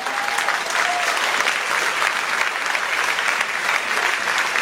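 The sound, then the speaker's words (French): An audience applauds at a French-language church gathering, with thick, continuous clapping throughout and a couple of brief tonal cries rising above it early on. “Alléluia, pouvez acclamer le Seigneur.”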